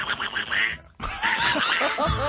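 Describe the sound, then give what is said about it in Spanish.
A person's voice imitating a cartoon duck: raspy, buzzing, squawking syllables in two quick bursts split by a brief pause, loud and up close. “A ver, que lo hace usted muy bien, el Pato Donald. Perfecto.”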